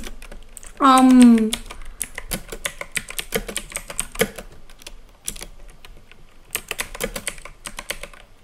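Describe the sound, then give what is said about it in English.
Typing on a glitchy computer keyboard: many quick, light key clicks in irregular bursts, with a short voiced hum early on. “I'm typing without a screen reader, so I hope my keyboard doesn't glitch. My keyboard is a glitchy keyboard.”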